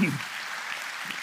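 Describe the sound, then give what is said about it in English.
A church audience claps in praise during a service. A brief voice opens the moment, then faint, diffuse applause carries on quietly to the end. “How many of you believe that Jesus Christ is the greatest treasure of your life? Why don't you give Him a hand clap of praise then?”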